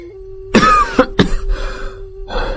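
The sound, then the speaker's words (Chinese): A man has a coughing fit after drinking strong imperial wine at a palace banquet. Several harsh, rough coughs come in quick succession, loud and alone, over a faint steady background tone. “咳了好一阵儿”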